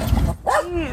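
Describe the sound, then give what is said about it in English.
An anxious dog barks briefly, then lets out a drawn-out, high whimpering whine that rises and falls, while people talk. “So what you're hearing right now is Taco. He's my anxious dog.”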